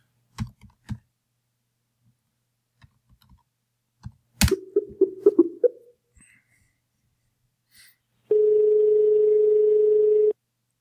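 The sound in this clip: Telephone call to a ministry of agriculture at an overseas +599 number: a few soft clicks, then a quick run of short tones as the number goes through, followed by a single steady ringing tone held for about two seconds.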